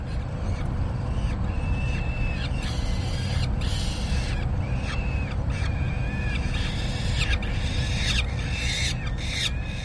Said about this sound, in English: And on this roof is a falcon, sitting on a nest. She's a peregrine falcon, and her eggs have just started to hatch.